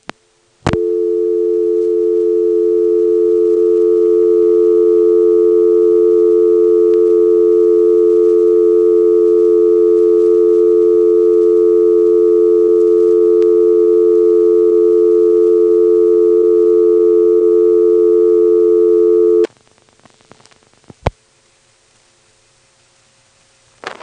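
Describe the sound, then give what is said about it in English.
A telephone dial tone left unanswered hums as a loud, steady, unbroken tone for about nineteen seconds, then cuts off abruptly with a click, leaving near silence broken by a couple of faint clicks. “Here's the sound of dial tone timing out.”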